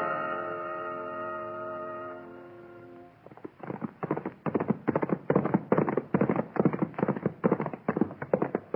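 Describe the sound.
Horses' hooves clip-clop at a steady riding rhythm, many regular hoofbeats that begin after a sustained tonal sound fades out and carry on evenly to the end.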